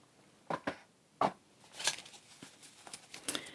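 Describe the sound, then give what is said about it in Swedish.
Cards being shuffled from a brand-new, slightly sticky deck: a few quick papery riffle bursts, followed by softer, continuous rustling and slapping of the cards. “Jag blandar och den är så ny den här kortleken så de klibbar sig fast lite grann.”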